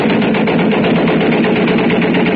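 Rapid gunfire sound effect in an audio drama, fired at a mounted rocket gun and robots. A loud, dense rattle of shots runs without a break through the whole clip, with no voices.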